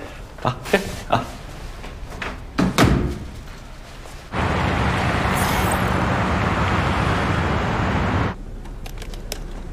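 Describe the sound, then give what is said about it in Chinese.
A door being shut: a few sharp knocks and clicks lead to one solid slam, and a steady rushing noise follows for several seconds. “把门关上。”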